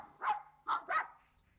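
A dog barks three times in a short, fairly faint sequence, with a small gap after the first bark and the last two close together, then quiet.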